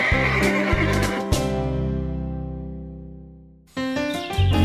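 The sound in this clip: Lulu, a horse at a ranch resort, neighs loudly in a long, harmonic whinny whose pitch falls as it fades, then gives another short, strong burst of whinnying.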